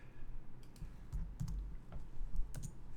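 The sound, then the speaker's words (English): Typing on a computer keyboard: faint, irregular key clicks arriving in a few short bursts over a quiet background. “just typing in a couple things in the comments over there”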